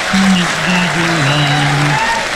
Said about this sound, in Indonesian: kita tepuk tangan, bagi tepuk tangan, bagi semangat sikit